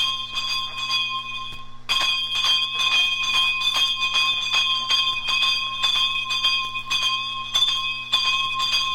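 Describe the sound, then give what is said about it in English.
Bells ringing in Trinidad, recorded in 1961: many quick metallic strikes ring over steady, bright sustained tones, with a brief break near the start before the ringing resumes at an even pace. “Playing behind me is some bell ringing from Trinidad, recorded in 1961.”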